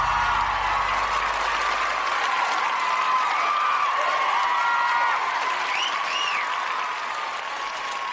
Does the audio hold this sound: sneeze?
no